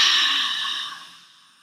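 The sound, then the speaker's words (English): A slow breath out during a breathing exercise, a soft airy exhale that starts fuller and gradually fades away over under two seconds. “Inhale three. Holding it. Exhaling.”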